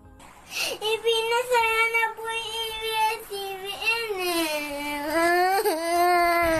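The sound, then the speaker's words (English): Little children sob and cry as a TV network goes off the air, heard as loud, sustained wails whose pitch wavers, dips and climbs with short catches of breath. “Bayan Patrol shared videos of little ones sobbing and crying as ABS-CBN left the airwaves.”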